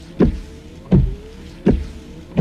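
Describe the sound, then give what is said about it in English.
Car windshield wiper blades sweep back and forth across the glass in three rhythmic swishing strokes, each ending in a low thump, with a faint rubbery squeak between them. “It's Rain-X wiper blades.”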